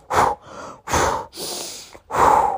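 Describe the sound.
A voice imitates a reaction to sharp pain with short, sharp gasping breaths: four quick, loud, breathy inhales and exhales in an uneven rhythm, with no words spoken.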